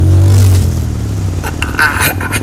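Motorcycle engine running loudly and revving steadily, with a low, continuous throb and scraping, clattering noises over it near the end.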